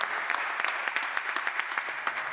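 Audience applause at a concert after a song, a dense steady patter of many hands clapping with sharp individual claps poking through, fairly loud and continuous, no voices over it.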